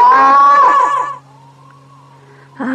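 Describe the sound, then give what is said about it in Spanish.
A woman screams loudly, a sustained, strongly voiced cry lasting about a second. A faint lingering tone follows, then another loud vocal burst begins at the very end. “¿No oyó los gritotes hasta allá?”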